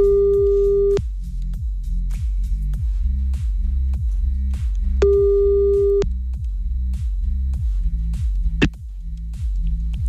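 Ringback tone of an outgoing phone call: two long, steady tones about four seconds apart over a loud, pulsing, rhythmic music bed.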